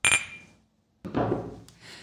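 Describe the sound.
Glasses clink in a toast in a café, one bright ringing clink that fades quickly, then a brief, noisier sound after a short pause.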